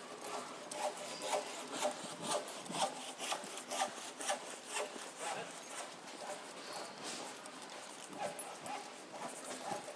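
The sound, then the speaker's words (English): Carpentry work, with a saw cutting through wood in many rhythmic back-and-forth strokes, steady and fairly faint. “You've carpentry going on over there.”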